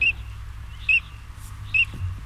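Calls of a Eurasian teal duck: three short, high, whistled chirps, evenly spaced and fairly faint, with a low background rumble.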